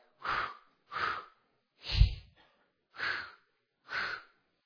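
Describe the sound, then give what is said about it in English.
A person practices Lamaze breathing for childbirth with five rhythmic puffed breaths about a second apart, each a short breathy burst. The third is louder and deeper than the rest. “So we had all these breathing exercises that we had to practice.”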